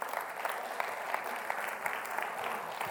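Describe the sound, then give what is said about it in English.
Audience applause at a church service rises after the musicians are called back, a steady dense patter of many hands clapping at moderate level, with no voices standing out. “Round of applause for the”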